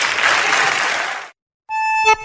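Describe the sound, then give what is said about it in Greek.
Audience applause for a remark on a Greek TV programme, a dense, loud burst lasting just over a second that cuts off abruptly, followed after a short silence by a brief tonal sound. “Αυτό που με ενθουσιάζει είναι το χειροκρότημα από κάτω βέβαια”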